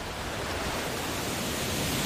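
A waterfall pours into a river on a Caribbean island, making a steady, dense roaring rush of water that stays even and unbroken throughout.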